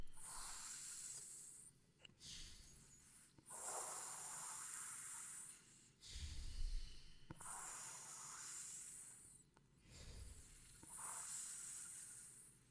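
Cold air is drawn in over the tongue during a breathing exercise. Several long, soft hissing breaths come one after another, separated by brief pauses, with no talk.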